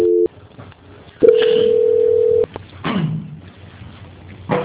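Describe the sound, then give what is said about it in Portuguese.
A telephone line tone during a call transfer to a bank's quality-control department: a short beep at the start, then a steady held tone lasting over a second, with faint line noise between and a brief burst at the end. “Só aguardar na linha que eu vou transferir, não me liga, por favor. Tá bom. Transferência.”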